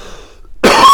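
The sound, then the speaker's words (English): After a brief near-silent pause, a person breaks into a loud, harsh cough that carries through to the end. “I apologize for coughing up a storm today.”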